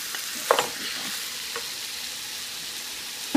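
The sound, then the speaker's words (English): Food fries in a pan that holds only a small amount, giving off a steady soft sizzle and hiss throughout, broken by a few brief clinks and stirring sounds. “And I don't want to overcrowd the pan, so I'm not going to put a lot in there.”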